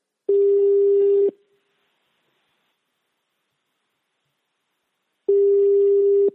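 Telephone ringback tone plays while a caller waits for an answer: two steady, mid-pitched tones about a second long, separated by a long silence, with no voices.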